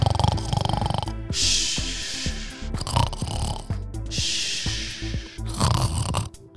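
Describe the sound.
A voice imitates snoring, making loud, rasping snores. Harsh, noisy exhale bursts repeat and alternate with lower, throaty, voiced snorts in a slow, uneven rhythm.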